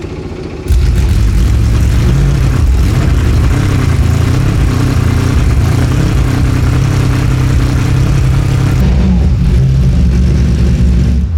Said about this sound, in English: Let's hear onboard. Here's a little startup. That's kind of a false start, actually. Here's an idle and rev.